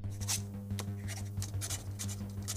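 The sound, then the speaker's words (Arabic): A pen scratches across paper as someone writes down Swiss bank account numbers by hand, giving many short, faint strokes in an uneven rhythm over a low, steady hum. “اكتب لي هنا كل أرقام حساباتك في سويسرا”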